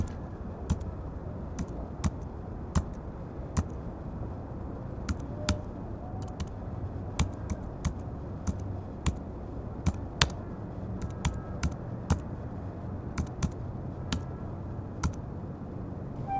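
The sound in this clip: An address being typed on a laptop keyboard: sparse, distinct key clicks at an uneven pace across the whole stretch, over a low, steady background hum.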